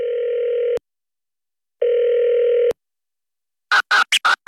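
Telephone dial tone on an outgoing call: two long, steady beeps separated by silence, followed by a quick cluster of short, sharper bursts at the end.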